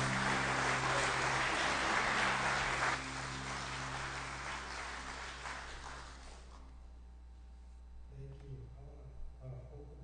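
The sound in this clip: An audience in a church applauds a speaker welcomed to the pulpit. The dense, steady clapping fades away over about six seconds, then a man begins talking.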